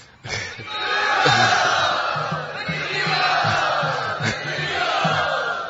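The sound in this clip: An audience cheers and calls out to welcome a guest at an evening gathering. After a sudden start, the mix of whoops and shouts from many voices stays at moderate volume throughout.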